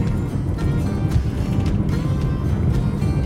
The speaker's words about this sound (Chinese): 好了，现在我们正在车上开车哈。为了确保安全，我把这个设备放到了前面。